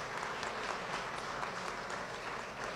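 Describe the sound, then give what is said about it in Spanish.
Applause from an audience makes a faint, even wash of many hands clapping that holds steady throughout without rising or fading. “Un aplauso.”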